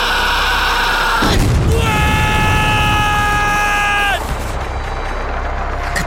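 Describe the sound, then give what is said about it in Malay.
Gunfire and explosions in a battle involving military vehicles: a sudden loud booming burst cuts in, then dies away under a constant noisy rumble. “Balas serangan! Jangan nama musuh? Tubi-tubi tembak! Tembak!”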